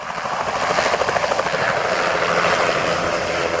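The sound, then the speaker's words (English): Small plane spraying mosquito-killing pesticide, its engine giving a loud, steady, buzzing drone with a fast pulsing flutter that runs unbroken throughout. “Here's the sound of a small plane spraying mosquito-killing pesticide.”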